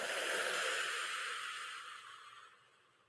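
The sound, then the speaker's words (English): A deep breath during a guided meditation: a long, airy hiss that starts full and steadily tapers off to near quiet, with no talking. “closing my eyes, taking in a big inhale, and exhaling everything that no longer serves you.”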